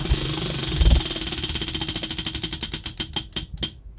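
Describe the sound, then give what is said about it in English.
A prize wheel is spun by hand, its pointer ticking in a rapid rattle of clicks that gradually slow and spread apart as the wheel loses speed, over a low background hum. “So here we go. I'm going to spin the wheel.”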